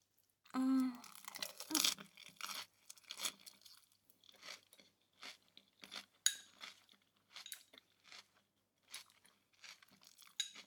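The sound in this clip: Eating food, with crunchy bites and chewing in many short, irregular bursts separated by brief pauses, fairly quiet and alone.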